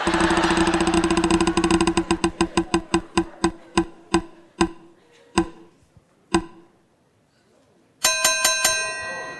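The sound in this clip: A prize wheel spins at a live show. Its rapid clicking slows gradually into widely spaced ticks until it stops, followed by a burst of bright, ringing chimes.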